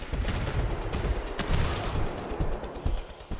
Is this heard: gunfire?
yes

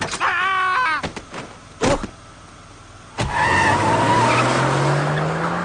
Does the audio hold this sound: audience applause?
no

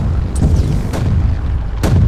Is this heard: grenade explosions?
yes

